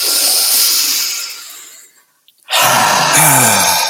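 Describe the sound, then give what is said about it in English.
A deep breath drawn in and slowly let out during a guided breathing exercise: a loud, airy breath that tapers off into a short pause, then another loud breath begins with a slight voiced, sigh-like tone. “So imagine a triangle, draw the breath in, let it go. And again.”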